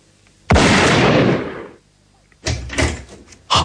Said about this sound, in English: I had better raise the gun to my hobby face and pull the trigger.